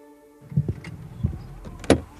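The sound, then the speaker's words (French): People get back into a car, making a few soft thumps and clunks followed by a sharper click near the end. The sounds are fairly faint and scattered over a quiet background. “Nous remontons en voiture et prenons la direction de l'Est”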